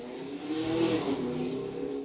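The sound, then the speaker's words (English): A car races down a street, its engine revving in a continuous gritty roar that swells slightly and holds loud for about two seconds. “That's somebody racing down the street. They always do that for some reason.”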